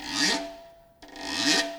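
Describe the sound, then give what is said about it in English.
A drumstick is scraped along the rim of a snare drum, giving two rasping, guiro-like strokes separated by a brief gap, each swelling and fading, with a steady ringing tone beneath. “So I scrape it along the rim of the snare drum. You get a sound like this.”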